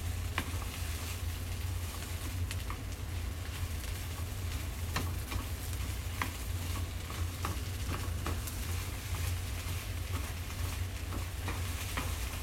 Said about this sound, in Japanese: そのハヤシライスを作るための玉ねぎを今めちゃめちゃ炒めてる